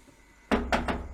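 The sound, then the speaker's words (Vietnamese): Three quick knocks on a door, loud hollow thuds in fast succession, with nothing else heard around them. “Tiếng gõ cửa dồn dập vang lên.”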